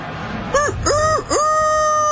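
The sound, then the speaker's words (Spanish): A rooster crows in one drawn-out call: a short first note, then two longer, level, nasal segments with rich harmonics. The crow is loud and heard alone. “Como está el gallo hoy”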